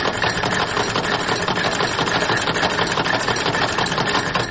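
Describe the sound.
A sewing machine runs during tailoring work at a women's treatment centre, giving a steady, fast mechanical whir with an even stitching pulse that continues without pause.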